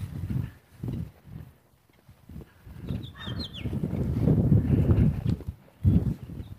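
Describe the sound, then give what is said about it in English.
Footsteps of a person walking east outdoors in the cold with the sun in their eyes: soft, low thuds in a steady walking rhythm, growing into a denser scuffing run in the middle before a final firmer step. “So yeah, I'm walking east. I got the sun in my eyes, actually.”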